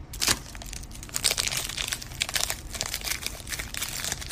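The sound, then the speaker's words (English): Crinkling and tearing of a foil pack of Pokemon trading cards being opened. The rustle runs steadily throughout at a moderate level, with no voices. “Finally, I can open up a pack of Pokemon cards.”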